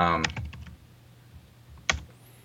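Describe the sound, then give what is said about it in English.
Typing on a computer keyboard while entering a search query: a few sharp key clicks follow a brief moment of talk, then a lone louder tap sounds after a pause. “For the listeners, I guess it's like if you go to Google and you type in refrigerators, like, mm-hmm. I don't know, let me do it right now.”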